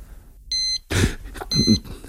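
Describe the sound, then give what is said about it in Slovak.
A wristwatch beeps twice, two short, high electronic tones about a second apart, with a burst of rustling noise between them. “Nemohli by ste vypnúť to pípanie na tých hodinkách?”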